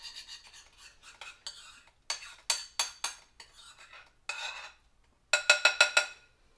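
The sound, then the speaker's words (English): Hot melted chocolate is stirred into a hot cocoa mixture, making many faint scraping and clinking strokes in an uneven rhythm, with a quick run of sharper clinks near the end. “go ahead and start to mix in the hot melted chocolate. Okay, so give me a second, everybody, because it's hot.”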